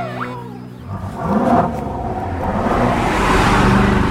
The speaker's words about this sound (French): Une Ferrari, déjà, c'est assez clinquant, c'est assez voyant, mais là, c'est une Ferrari dorée. Tout brillant, toute clinquante qui me dépasse.